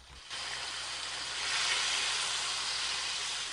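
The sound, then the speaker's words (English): Bacon and eggs frying on a stove sizzle as a bright, steady hiss that starts abruptly and swells slightly, continuing without any talk. “The middle-aged man returns to his stove, where he's frying up some bacon and eggs.”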